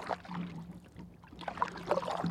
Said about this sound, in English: We paddle for a few more miles and then bring the canoe ashore and have lunch.